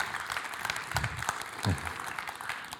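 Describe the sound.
Audience applause welcoming a guest speaker: steady, dense clapping from a crowd that holds fairly even for the whole stretch.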